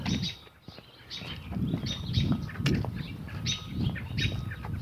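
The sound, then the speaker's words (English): Many small birds chirp in quick, overlapping high tweets that form a steady chorus above a low background rumble. “Lots of little birds.”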